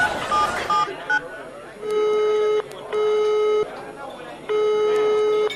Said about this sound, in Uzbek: Xohlagan raqam teramiz.